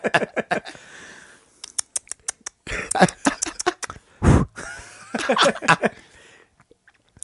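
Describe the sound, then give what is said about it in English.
An envelope being opened: a run of brief, crisp paper crackles and tearing rustles in irregular bursts, fairly quiet and mostly alone. “Maybe you should open the envelope.”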